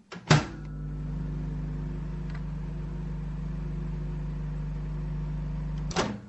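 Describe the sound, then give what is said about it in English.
A microwave oven runs with a steady low hum for about five and a half seconds, framed by a clunk as it starts and another clunk as it stops, with no voices. “do you want to put your microwave on?”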